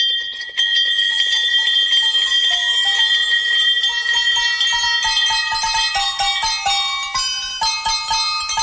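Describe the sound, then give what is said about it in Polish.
A cheerful carol played on real victory bells, the kind rung in cancer clinics, with many bright overlapping strikes forming a steady melody that rings on loudly throughout. “Słuchacie właśnie najradośniejszej kolędy na świecie. Złożonej z prawdziwych dzwonków zwycięstwa. Tych, które rozbrzmiewają w klinikach, kiedy ktoś pokonał raka.”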